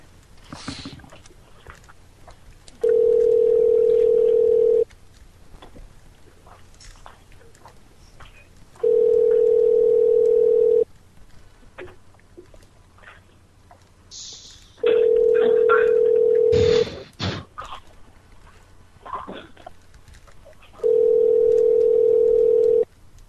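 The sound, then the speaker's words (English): A mobile phone call is being placed, with four steady, evenly spaced telephone tones, each about two seconds long. Longer gaps between them hold faint clicks and handling noise. “Here, let me try again. Yeah. Okay, I'm trying to dial.”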